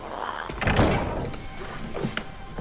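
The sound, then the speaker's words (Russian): A door opening in the animated film Aladdin, a dull thunk followed by a few lighter knocks and a soft sliding sound. “Яго прилетел на балкон и наблюдает, как Жасмин открывает гостю.”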